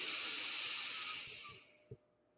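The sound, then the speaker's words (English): A long, deep breath during a chakra meditation session, a steady airy rush that holds strong, then fades away, with one soft low thump near the end. “Breathe in”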